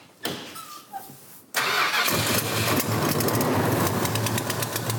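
V8 car engine, with a suspected broken gasket or cracked manifold, starting: a couple of faint knocks, then it catches abruptly into a loud, steady, rough rumble that holds to the end.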